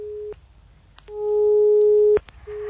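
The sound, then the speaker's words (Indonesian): A telephone busy tone sounds during a call that fails to connect. A short beep is followed by a steady, loud, mid-pitched tone of about a second, then another short beep begins, all over a low background hum. “Andi Sanga belum bisa tersambung”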